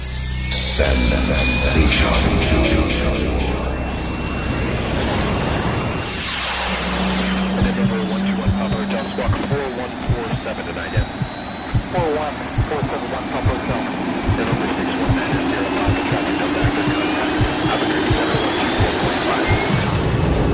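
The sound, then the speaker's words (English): Jet airplane takeoff roar used as an intro effect for a trance mix show: a loud, sustained engine rush with whining tones sweeping across, joined after several seconds by a steady pulsing throb underneath. “fasten your seatbelts, and prepare for takeoff.”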